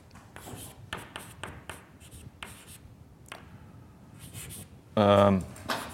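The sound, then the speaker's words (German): Writing on a board during a maths lecture: a series of short, scratchy strokes in uneven bursts, with a brief louder sound near the end. “Aber jetzt schreibe ich mal ein phi hin.”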